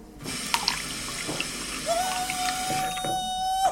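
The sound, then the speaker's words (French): Water being poured in, a steady rushing splash with a faint sustained ringing tone through the latter half, alone without talk. “Attends, je mets un peu d'eau.”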